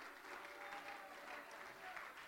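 An audience claps hands during a church revival service, a faint, even and continuous patter of many hands held at a steady level throughout.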